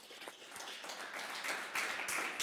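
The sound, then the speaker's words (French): Quiet audience applause thanking a guest lawyer after a segment on real estate, a brief, even patter of many claps that swells a little toward the end. “Maître Anne-Sophie Louis, qu'on peut applaudir”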